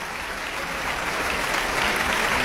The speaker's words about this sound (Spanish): que regresa al escenario para recibir los aplausos